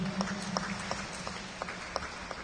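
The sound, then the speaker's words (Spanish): An audience claps in a steady, evenly spaced rhythm for a member's birthday during a church service, the claps fairly faint over a soft continuous background with a low sustained tone. “Demos palmas a nuestro hermano Juan Ariel,”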